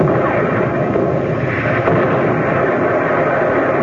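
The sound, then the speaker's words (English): Warship guns firing during a naval battle at sea: a dense, continuous loud roar of blasts and rumble, with no clearly separate shots. “Commence firing. Commence firing.”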